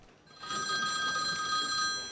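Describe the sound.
A telephone rings outside a hospital room: one steady, high, bell-like ring lasting under two seconds, faint and heard alone.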